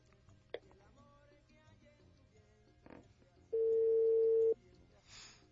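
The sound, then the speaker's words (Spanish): Telephone line tones as a call is forwarded: faint brief clicks, then one long, steady beep of about a second, followed by a short burst of hiss. “Tu llamada se reenvía. No, ya nos desvía la llamada”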